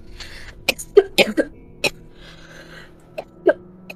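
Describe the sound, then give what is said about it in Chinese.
Coughing from choking on saliva with an itchy throat: a cluster of short, sharp coughs, then a pause and a couple more, moderately loud. “喉咙有点痒，因为是被口水呛到的。”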